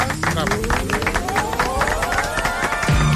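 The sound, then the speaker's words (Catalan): Classic theme tune of the Catalan television channel TV3, with rising electronic sweeping tones climbing over a dense, busy, noisy bed. “I aquesta és la sintonia clàssica de TV3.”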